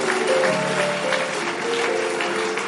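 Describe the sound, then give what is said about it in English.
A church audience claps together during a worship service, producing a dense, steady wash of applause that holds evenly through the whole clip, with a few sustained tones running beneath it. “Let's give the Lord a mighty clap.”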